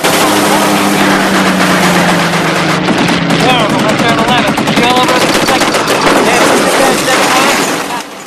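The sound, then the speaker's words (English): A bomber crew fires machine guns from the top turret and other gun positions at attacking German fighters: a loud, continuous rapid rattle of bursts over a droning engine, with voices shouting amid the gunfire. “In the top turret, Verge is firing at the enemy. The crew fire at random from their various positions.”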